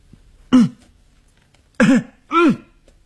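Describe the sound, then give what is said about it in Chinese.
Three loud coughs or harsh throat-clearing bursts from a man at a dormitory staircase: one short burst, a pause, then two close together, with quiet in between. “他大声的咳嗽”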